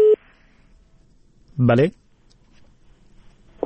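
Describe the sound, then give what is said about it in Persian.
A telephone call being connected on a radio call-in show: a short steady electronic tone at the start, a brief burst of voice in the middle, then another tone beginning right at the end. “بله بفرمایید، تماس شما برقرار شده.”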